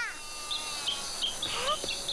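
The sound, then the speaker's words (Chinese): A sparrow chirping by rice-field paths, a series of short, high, thin tweets spaced irregularly over a soft, steady background. “小麻雀，小麻雀。”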